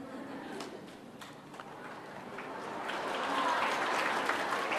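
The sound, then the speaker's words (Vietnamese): Audience applause at a Buddhist temple teaching session, a continuous, faint patter of many hands that swells louder in the second half, with some voices mixed in. “Các bạn vỗ tay nhiều quá thầy rung rồi đó.”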